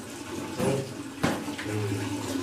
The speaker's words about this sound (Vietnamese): Mình phải chà, chà lên đấy. Đó, chà lên, chà cho nước nó dính. Rồi tới tay phải, tay trái. Tay phải rồi, ba lần.